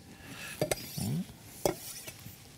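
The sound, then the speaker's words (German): A knife cuts through tuna, heard as faint clicking taps and a brief scraping slice with near silence between them. “Gut, dann schneide ich nochmal den Thunfisch auf, dass man das auch noch schön sieht.”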